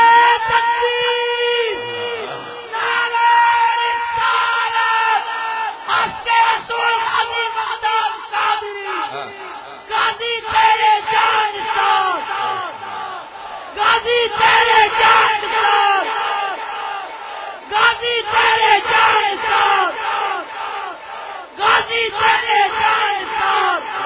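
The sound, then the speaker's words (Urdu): Massed voices of a crowd at a religious gathering loudly shout a slogan in unison, in repeated forceful bursts of yelling separated by brief pauses. “دلیر بندے اٹھ کے دوال کر کے نعرہ لا ممتاز حسین قاضی کا،”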